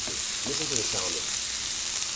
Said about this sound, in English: here I am cooking two filet mignons. I've never done this, so I hope it comes out good.